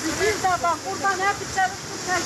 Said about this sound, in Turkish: Sel her tarafı aldı götürdü böyle. Burası da Bolu'nun Gerede ilçesi. Sağanak sonrası Sadur köyünden geçen dere taştı.